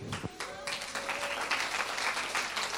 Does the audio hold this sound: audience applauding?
yes